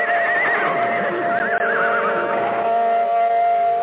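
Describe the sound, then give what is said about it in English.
Horses whinny in a stable, loud, shrill and quavering. The wavering neighs overlap and run on without a break for nearly four seconds. “What's all the noise in there? What's the matter with the horses?”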